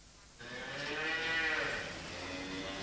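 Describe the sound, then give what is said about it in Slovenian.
Cattle (cows and bulls) moo: one long, drawn-out call begins after a short quiet moment, swells in loudness and then eases off, with no voices. “Ala krave in biki, sedaj je pa prišel čas za napašo.”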